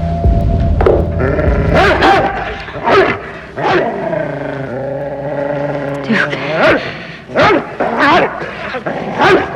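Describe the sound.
A dog barks in many sharp, loud bursts and breaks into a drawn-out whimpering whine in the middle before barking resumes.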